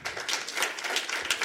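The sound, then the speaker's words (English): A studio audience gives a short round of applause in answer to a show-of-hands question, a quick patter of separate claps that starts abruptly and continues at an uneven, moderate level. “By a round of applause, how many people have seen Girl 6?”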